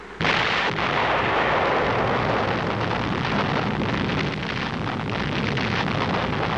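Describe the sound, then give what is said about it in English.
An atomic bomb explodes at a ground zero target after being dropped by a bomber circling at 32,000 feet. A sudden loud blast swells into a sustained, heavy rumbling roar that continues to the end. “Overhead at 32,000 feet, a bomber is circling with its devastating bomb. Now it is 0-10 seconds to H-hour, and the atmosphere is tense around the ground zero target.”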